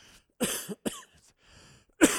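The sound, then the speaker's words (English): A person with a cough that has lingered for three weeks coughs a few times in short, rough bursts, with a brief pause before a final louder cough. “Excuse me, I'm going to cough again.”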